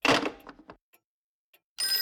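A telephone bell rings in a loud jangling burst that fades out, then a near-silent pause follows before the ringing starts again.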